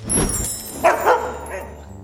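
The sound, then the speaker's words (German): A dog barks during a magic-trick scene, a couple of short, moderately loud barks or yips close together amid faint background noise. “Das gibt es doch nicht. Ein Hund, wie nett.”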